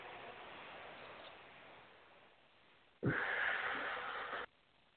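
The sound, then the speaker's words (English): A deep breath taken during a guided healing exercise, heard as a single soft, airy rush of about one and a half seconds that begins and ends abruptly, faint and without talk. “And take a nice deep breath.”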